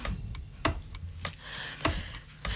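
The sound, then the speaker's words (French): A ticking, clock-like jingle introducing a quiz on a French radio show: sharp, dry ticks repeat at a fairly steady pace over a soft, low background hum. “Attention, jingle.”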